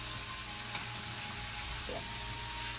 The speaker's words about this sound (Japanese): これさ、ちょっともやし焦げてきてね。